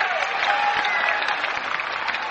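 Applause from the Grand Ole Opry audience welcomes guest Billy Walker, a brief burst of dense, steady clapping with a thin, narrow-band sound.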